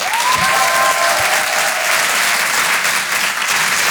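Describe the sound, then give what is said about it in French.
Loud, sustained audience applause for a comedian at a comedy show, a dense even clatter of clapping throughout, with a brief high whistle near the start. “Vous pouvez l'applaudir très fort, Myri sur Rire et Chanson. Bravo Myri.”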